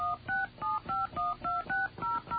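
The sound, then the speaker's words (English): A touch-tone phone keypad dials a number: a rapid, even series of about ten short, clear dual-pitched beeps with brief gaps between them. “Using your touch-tone keypad, please enter your home area code and phone number. Let's enter”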